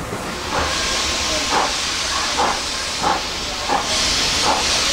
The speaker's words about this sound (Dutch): Als je die locomotief ziet, jongen, dat is echt een monster. Echt gigantisch groot.